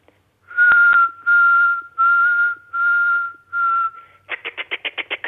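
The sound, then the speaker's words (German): A person whistles an imitation of a nightingale's song: five long, steady notes held at one pitch, then a quick run of short, higher, choppy notes. “Ich probiere es. Ja? Meine Imitation ist okay. Noch nicht perfekt, aber in etwa hört sich die Nachtigall so an.”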